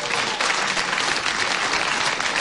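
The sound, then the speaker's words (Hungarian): Applause from a theatre audience at a radio cabaret show, dense and steady clapping throughout, with no voices over it. “Zúg a taps”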